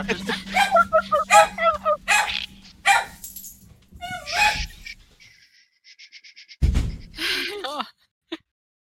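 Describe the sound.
A dog barks in several short, sharp bursts mixed with gasps and people talking, followed by quieter rapid yips and a final brief bark.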